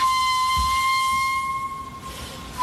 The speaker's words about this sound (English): It's two walruses. They sound like distant trains.